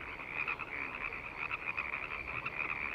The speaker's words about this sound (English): There are frogs all over the picnic table.